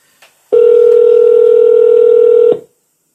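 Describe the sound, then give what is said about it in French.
A telephone ringback tone after dialing: a faint click, then one loud, steady, pure beep held about two seconds, followed by silence. “Ça numérote. Allô? Ouais, ça sonne.”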